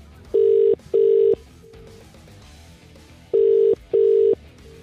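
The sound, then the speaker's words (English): An outgoing phone call rings out as a radio prize call is placed: two pairs of steady, mid-pitched double rings separated by a pause, with a fainter short tone between them. “The computer has randomly and hygienically spat out a name. Let's hope it's yours. Let's get dialing.”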